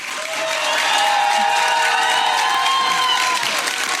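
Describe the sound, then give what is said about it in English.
A crowd of passionate supporters cheering and applauding a hero's welcome for Senator Fatima Payman on her return to Western Australia, a dense, continuous, loud mix of clapping, shouts and high cries. “Newly independent Senator Fatima Payman has returned to Western Australia with a hero's welcome from her passionate supporters after resigning from the Labour Party.”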